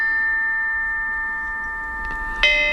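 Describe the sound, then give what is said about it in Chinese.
Ancient Chinese bronze chime bells ring out in clear, sustained metallic tones that hang in the air, then two fresh bright strikes sound close together near the end. “编钟真是太好听了”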